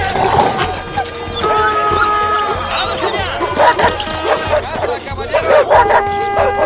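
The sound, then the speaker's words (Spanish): A pack of hunting dogs accompanying a hunt barks and yelps in many overlapping, excited bursts, with human voices mixed into the din. “Una jauría de perros acompaña a la batida.”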